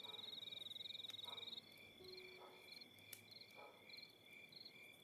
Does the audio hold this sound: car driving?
no